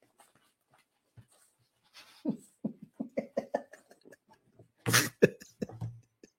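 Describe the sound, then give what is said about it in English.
A dog pants and whimpers in a quiet series of short breathy puffs and small whines, with a louder huffing burst near the end. “What's up, dog? Dog? There you go. See? That's my dog.”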